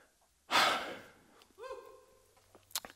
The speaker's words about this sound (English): I'm going to catch my breath.